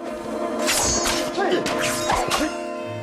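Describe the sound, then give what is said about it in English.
Swords clashing in a fight between two men: several sharp metallic strikes and swishes in quick succession over a sustained tonal background. “The two men cross swords.”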